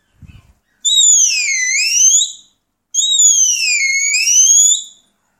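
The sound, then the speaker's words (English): High-pitched herding whistle used to command a working dog, sounded as two long, shrill whistles, each about one and a half seconds, dipping in pitch and then sweeping back up, with silence between them. “Another high tone whistle that I use sometimes is”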